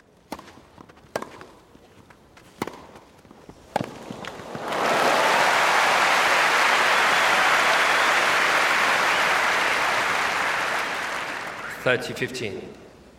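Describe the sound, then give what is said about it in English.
A cheering sports crowd, recorded in surround, swells into a loud, dense roar of cheers and applause that holds for about seven seconds, then drops away. Scattered sharp knocks come before it. “So when you're in the middle of a cheering crowd, when it's been recorded well, the surround really involves you in the play”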